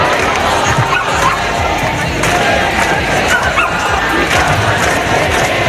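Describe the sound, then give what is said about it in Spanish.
A protest march crowd fills a street in Valencia with a dense, loud, unbroken roar of many voices and shouts, steady throughout with no pauses. “Este es el sonido de la marcha que comienza ahora mismo en Valencia.”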